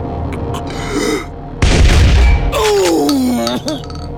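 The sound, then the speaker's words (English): Gunshot in a radio drama: a single loud, sharp boom that rings out and decays over nearly a second, with brief talk before it and a man crying out afterward. “Oh, why did you shoot me? You goddamn hick! I told him to put the gun down. I didn't want to shoot him.”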